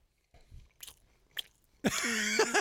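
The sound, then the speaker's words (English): Faint crunchy biting and chewing on a bite of meat during a food taste test: a few soft irregular crunches, then a louder sustained noisy burst with tonal streaks. “Mouth noises. Yeah. People love that.”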